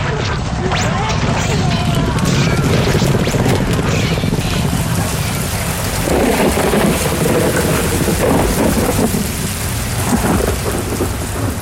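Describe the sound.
Heavy rain pours down with rumbling thunder in a radio drama, soaking soldiers' firearms. The downpour is a dense, loud, unbroken hiss throughout.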